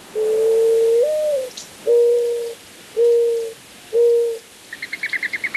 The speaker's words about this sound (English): When I grew up in Arizona, I would hear the mourning dove in the morning on the way to school, cooing late in the afternoon.